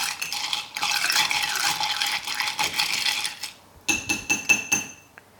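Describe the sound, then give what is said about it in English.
Stirring a keto mojito with crushed ice in a glass: about three seconds of continuous gritty swishing and scraping, then a quick run of several bright, ringing clinks against the glass. “Give it a really good stir, mixing it all up, getting the flavours really going.”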